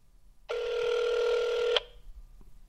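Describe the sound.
A telephone tone from a call to a 211 helpline for cooling-center help during a heat wave: one steady, buzzing electronic tone lasting just over a second, starting and stopping abruptly, then near silence.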